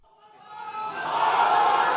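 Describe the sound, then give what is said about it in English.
Hundreds of supporters cheer a frail 66-year-old cleric entering a courtroom in Jakarta; the crowd's roar swells from faint to loud and then holds at full volume. “The frail 66-year-old cleric entered the courtroom to the cheers of hundreds of his supporters”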